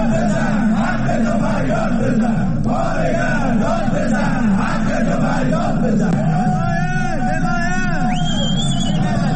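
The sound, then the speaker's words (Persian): Protesting factory workers chant and shout at a strike rally, home-appliance and Sarma Afarin staff in Alborz industrial town, Alvand, Qazvin. A dense, loud mass of voices continues throughout, with some higher shouted calls rising out of it near the end. “کارگران کارخانه لوازم خانگی و کارکنان شرکت سرما آفرین در شهر صنعتی البرز در الوند قزوین دست به اعتصاب زدند و در تجمع اعتراضی خود شعارهایی سر دادند.”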